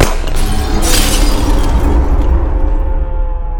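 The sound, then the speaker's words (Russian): An aimed gunshot shatters an eight-legged mechanical copper spider in a fantasy story: a loud bright burst, another sharp crash shortly after, then dense rumbling, crackling debris noise that lasts to the end and dulls as its high edge fades. “А Синий, увидев под капюшоном заступника восьмилапого медного паука, сделал в механизм прицельный выстрел.”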